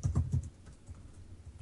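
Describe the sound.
Typing on a computer keyboard: a few firm key strikes at the start, then lighter, irregular clicks that carry on quietly to the end.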